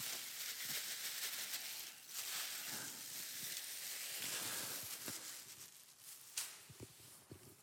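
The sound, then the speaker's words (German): Wheat still mixed with chaff poured into a sieve, a quiet, continuous granular hiss and rustle with scattered tiny ticks as the grains land. “Und jetzt habe ich hier so ein Sieb, ich schütte hier von diesem Weizen drin.”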